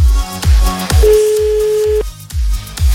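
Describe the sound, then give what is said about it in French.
A single steady ringback tone sounds on an outgoing telephone call to a contest winner, lasting about a second over a thumping, rhythmic music beat. “Allez, c'est parti, on appelle le gagnant, la gagnante pour la PlayStation 4.”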